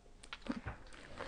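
Chewing while tasting quince preserve: soft, irregular mouth and crunching sounds in a few quiet bursts, with no voices.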